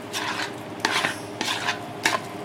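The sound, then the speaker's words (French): A prepared raw fish mixture being stirred in a salad bowl: several wet, scraping strokes with brief clinks, repeating at an uneven rhythm with no voices. “Et puis, bah, vous mélangez. Voilà, je mélange tout ce que j'ai préparé, tout ce que j'ai incorporé dans mon saladier.”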